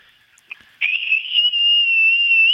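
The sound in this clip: A sustained, high-pitched human whistle, blown in a contest to reach the highest note, holds one steady, piercing tone for nearly two seconds after a brief faint chirp.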